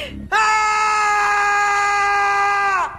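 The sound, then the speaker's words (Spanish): Loud scream of terror from a Spanish-dubbed anime: one sustained, high, strongly harmonic voiced cry lasting about two and a half seconds, holding a steady pitch before dipping slightly and cutting off. “la versión española está muy bien doblada y suena más o menos así, un grito pues de terror, un grito de paranoia”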